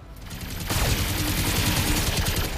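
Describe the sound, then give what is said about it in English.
Video game gunfire from a Locust mech firing two machine guns and a medium laser, a loud, dense, continuous rattle of rapid shots. “We're gonna fire everything. The Locust has 2 machine guns and a medium laser.”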